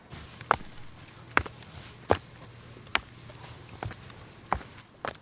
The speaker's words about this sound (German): wir laufen hier den Weg drauf. Es ist ein bisschen steil, wie gesagt. Sehr abschüssig.